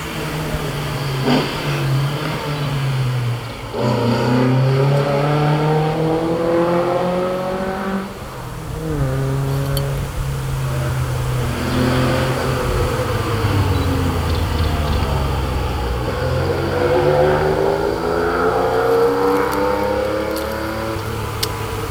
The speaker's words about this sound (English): Alpha GTV of the 70s, I think, to start, followed by a Porsche 911 in a very light mustard colour.